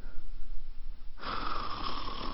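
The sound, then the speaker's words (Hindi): Snoring from a mother asleep in a chair with both legs pulled up. It is a steady, raspy rumble that turns noticeably louder and brighter about halfway through. “माँ कुर्सी पे दोनों पैर ऊपर किए खराठों वाली नींद ले रही है।”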